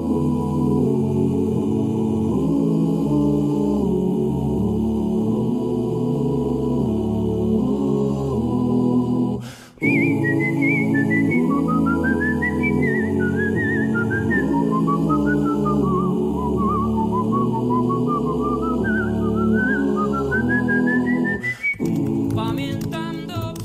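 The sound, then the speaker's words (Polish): A whistled melody rides over a song's instrumental backing, a bright tune that wanders up and down through its second half after a brief break in the music, at the start of a song; no voices. “Kocham to gwizdanie na początku.”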